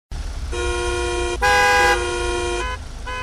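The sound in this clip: Car horns honk in a traffic jam of holiday return traffic, several loud sustained blasts overlapping and changing pitch one after another, with no talk.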